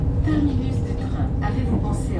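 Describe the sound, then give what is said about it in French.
A TER regional train arriving at a station gives off a steady, broad low rumble with faint higher rattles, holding at an even level throughout. “Notre TER arrive en gare de Mont-de-Marsan.”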